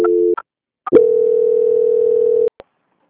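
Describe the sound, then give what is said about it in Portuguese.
Steady telephone line tone heard during a call transfer to a bank's quality department: a short tone, a brief gap with clicks, then a longer unbroken tone, all at a constant pitch, ending with a small click and no voices. “aguarda por gentileza na linha que eu vou transferir você agora para o setor de qualidade do Banco Santander para fazer algumas confirmações com o senhor, tá? Tá bom. Só um instante, por gentileza. Muito obrigada. Agradeço. Tchau, tchau. Transferência.”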